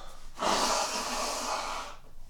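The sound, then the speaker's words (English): A person forcefully clears a stuffy, congested nose, sinuses acting up with a change in the weather: one sustained, breathy, hissing snort of about a second and a half, fairly loud and alone, stopping abruptly into quiet. “I have to deal with my nose real quick, so do excuse me.”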